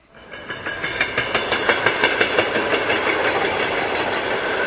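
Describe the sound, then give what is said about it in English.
A train on the Trans-Siberian railway clatters along the rails with a steady, rhythmic clickety-clack over a continuous rumble. The beats come at a regular pace and the sound stays loud throughout. “Here's a little snapshot, a little more of you from riding the rails across the Trans-Siberian.”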